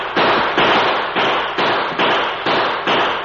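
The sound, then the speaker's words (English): Gunshots blaze from guns in a western radio drama. Seven loud, sharp blasts fire at a quick, fairly even pace, each a broad crack followed by a short fading tail, with no voices. “his guns blazing away in the direction of the retreating outlaws”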